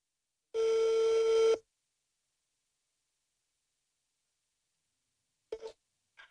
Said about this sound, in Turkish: Direkt Bayburt'u kahveyi arıyoruz şu an.